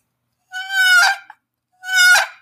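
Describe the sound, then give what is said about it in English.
A human voice imitates a turkey hunting box call with two loud, raspy, nasal yelps separated by a short pause. Each yelp is harsh and honking, like a squawk. “my buddy has this terrible box call. And it's not terrible. It's like, it sounds like this. It goes,”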